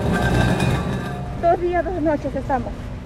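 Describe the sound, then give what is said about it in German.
Heavy green steel oxygen cylinders rolled forward in a slow queue make a low grinding rumble with faint metallic clinks, and then a voice talks over it. “Nur ganz langsam bewegt sich die Schlange weiter. Es ist schwierig, die schweren grünen Stahlzylinder ohne Helfer ein Stück weiter zu rollen.”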